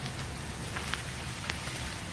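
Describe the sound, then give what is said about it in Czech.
Rain falls outside as a steady, even hiss of patter, moderately quiet, with a few faint sharper ticks of drops scattered through it. “Vy jste venku, i když prší? Mně déšť nevadí.”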